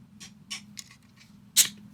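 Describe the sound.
A drink can is opened. A few faint clicks lead into a sharp pop and a short fizzing hiss near the end, over a low background hum.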